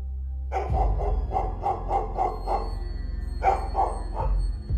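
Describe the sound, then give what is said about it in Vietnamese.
A dog barks on a misty road at night, a long series of sharp, mid-pitched woofs in rapid succession, loud and alone, with a short pause before a final burst of barks. “Loáng thoáng nghe có tiếng một con chó nó sủa ông ổng.”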